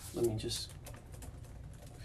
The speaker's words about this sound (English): I'm just going to type something in real quick.